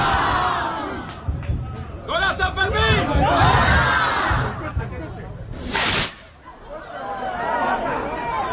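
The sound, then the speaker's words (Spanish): Crowd of San Fermín revellers in Madrid shouting and cheering at the chupinazo opening of the festival, with loud, overlapping voices rising and falling in waves and a sharp noisy burst partway through. “Y el sonido del día, el chupinazo en Madrid.”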